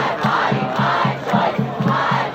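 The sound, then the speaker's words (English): Crowd noise outside the Supreme Court building, where people gathered after news of a leaked draft opinion overturning Roe v. Wade: a dense, steady wash of many voices with a repeated rhythmic pulse running through it. “As the news spread, a crowd started to form outside the Supreme Court.”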